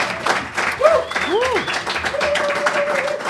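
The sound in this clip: Audience clapping for a guest named Binni: brisk applause runs throughout, mixed with voices and a few whoops.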